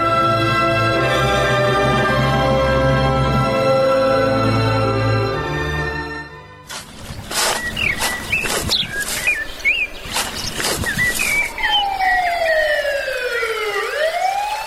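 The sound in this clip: A police car siren blares loudly in a village with a steady, bright tone for about six seconds, then stops, giving way to chirping bird calls, sharp knocks and falling whistle-like tones.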